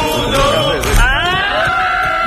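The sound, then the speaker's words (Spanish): A strange, loud final shout, a drawn-out wavering yell that bends upward in pitch partway through and then holds, over a busy, noisy background. “Ese grito final es un, no llega a ser un irrinchi, es una cosa rara.”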